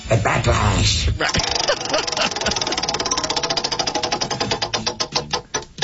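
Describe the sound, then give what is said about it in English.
A spinning prize wheel ticks in rapid, loud clicks that gradually space out as the wheel slows. A voice is briefly heard at the start. “And go ahead, give the wheel a bit of a spin. Wheel of topics continues.”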